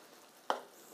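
Eggs for fried rice setting undisturbed in a pan give off a faint, steady sizzle, broken by two short, sharp knocks about half a second apart.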